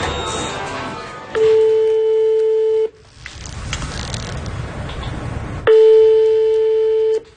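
Telephone ringback tone on an outgoing call from a hospital transplant coordinator to a patient: two long, steady, loud beeps, each about a second and a half, separated by a stretch of muffled noise.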